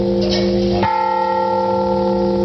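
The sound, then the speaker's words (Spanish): A bell of Toledo Cathedral rings loud and clear: a sharp strike lands early, then a rich, humming tone with several overtones rings on steadily to the end. “Este es el sonido de las campanas de la catedral”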